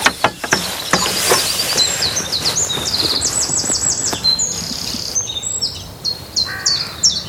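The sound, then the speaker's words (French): Great tit singing: repeated, bright high-pitched two-note phrases with a few extra chirps, clear and moderately loud, with no voices. “On a mieux la mésange, ça c'est la charbonnière.”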